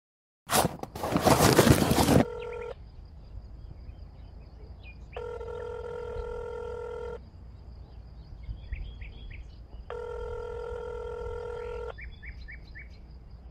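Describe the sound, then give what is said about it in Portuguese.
A phone call is placed from a kitchen, opening with a loud clattering burst and followed by a few long electronic ringing tones, with faint short chirps between them. “Vamos para a cozinha e ligar para o Sr. Fox.”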